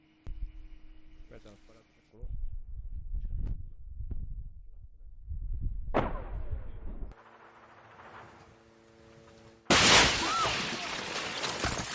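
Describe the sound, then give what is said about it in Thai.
Gunfire and a tank shell strike on a group of journalists covering war in southern Lebanon: scattered sharp bursts and rumbling, then a sudden loud blast that leaves a harsh sustained roar, with voices heard at times. “นั่นก็เป็นการโจมตีนะฮะภาพจากสำนักข่าวรอยเตอร์สและ AFP ระบุตรงกันว่ากลุ่มผู้สื่อข่าวที่ติดตามทำข่าวสงครามระหว่างอิสราเอลกับกลุ่มฮามาสถูกโจมตีนะฮะโดยกระสุนของรถถัง”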